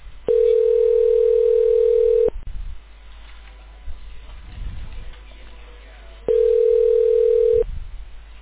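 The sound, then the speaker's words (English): Telephone line tone while a call is transferred to a voicemail system: a steady, mid-pitched electronic tone holds for about two seconds, then low line hiss for several seconds, then the same tone returns more briefly. “please hold while I transfer your call.”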